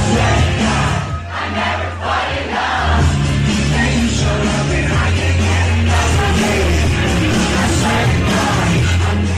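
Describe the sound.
Concert audience cheering and yelling at a pop-up show, a loud, dense roar of crowd noise that holds steady for the whole stretch, with shouts and whoops rising out of it.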